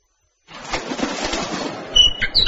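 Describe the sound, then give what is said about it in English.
A bird's wings flap in a rustling burst that starts abruptly, followed by a few short, high chirping calls near the end. “Hello, bird.”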